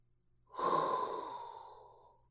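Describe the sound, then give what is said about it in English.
A single deep breath, a hot breath drawn in, starts abruptly and trails off slowly over about two seconds. It is soft and airy, heard alone without talk. “But now there's nothing left to do except inhale a hot breath”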